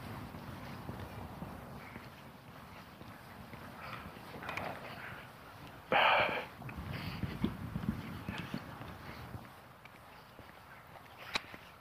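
Faint footsteps of someone walking outdoors among trees form a steady, regular patter under low background noise, with one brief louder rustle partway through.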